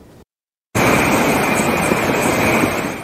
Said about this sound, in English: That is the sound of money as an Amazon distribution center pumps out millions of packages on Cyber Monday.